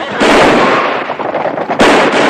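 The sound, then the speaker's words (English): Pistol gunshots fired by a gang at townsfolk, a loud sharp burst at the start decaying into a rough sustained rumble, then a second loud crack near the end. “The gang shoots off their pistols at the townsfolk and ride off in a hail of indiscriminate bullets.”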